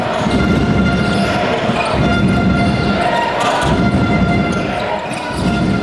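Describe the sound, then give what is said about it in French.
Home crowd of Chaland cheering their basketball team on defense in the third quarter, trailing by eight as opponents hold the ball; a loud, dense roar sustained throughout with a pulsing rhythm and thumps beneath. “Le public de Chaland est un public de connaisseurs qui sait soutenir son équipe quand elle a besoin. Écoutez ça, nous sommes dans le troisième quart-temps, Chaland est mené de 8 points, les adversaires ont la balle et il faut défendre.”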